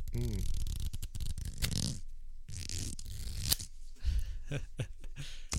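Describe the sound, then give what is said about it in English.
Playing cards riffled by hand: several crisp, papery flutters and ruffling bursts, loud and dry, with a voice talking briefly at the start. “You got your cards in your hand? Do you have your cards in your hand? I do. Couple of gentlemen with cards in their hands. Let's give a little riffle for the mic.”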